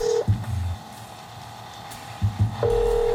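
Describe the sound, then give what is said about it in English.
Ringback tone of a telephone call ringing unanswered: faint, steady electronic tone bursts at the start and end, separated by a long gap of low background rumble and soft thuds. “telephone ring. After about 10 tries, somebody picked up.”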